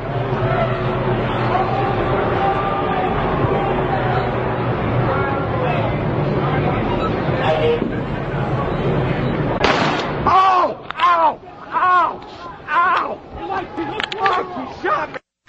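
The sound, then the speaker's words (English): A sub-lethal projectile is fired by Oakland police at about 1 a.m. during an Occupy protest and general strike. Crowd hubbub and voices give way to many sharp, loud bangs and bursts in quick, irregular succession. “he was shot by a so-called sub-lethal projectile by the Oakland police. And here's how it sounded.”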